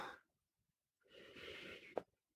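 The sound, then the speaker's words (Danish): A single deep breath in through the nose, a quiet airy rush lasting about a second and ending in a short sharp catch, preceded by the tail of a faint exhale. “Så tag en dyb indånding og træk al dit fokus, al din energi hjem i dig selv.”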